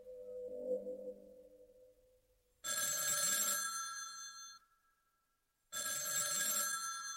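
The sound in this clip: A telephone bell rings in two long, bright bursts separated by a short silence, following a softer, lower tone at the start.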